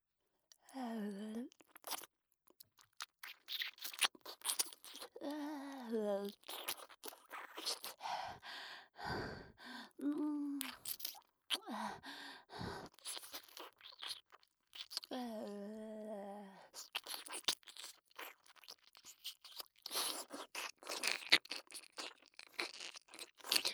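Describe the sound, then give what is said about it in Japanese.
Ear cleaning, with crunchy scraping and rubbing inside the ear in many irregular bursts, interspersed with soft breathy vocal sighs. “それではお耳の中もおきれいにさせていただきます。”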